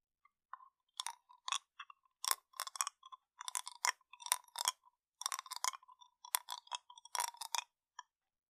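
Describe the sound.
Chewing a sweet candy that slowly melts in the mouth gives many short, crisp, wet clicks and soft crunches in irregular clusters. They are fairly quiet and steady throughout, with no talking.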